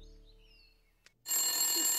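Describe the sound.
A telephone bell rings after a short, nearly quiet stretch and a single click. The ring starts abruptly and then holds, loud and steady, until the end.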